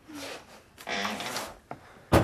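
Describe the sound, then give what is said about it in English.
A door is shut with one solid thud at the end, after soft shuffling and scraping movements. “Shut the door”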